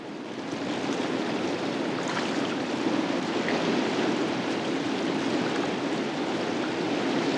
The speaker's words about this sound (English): Then they paddle off down the river.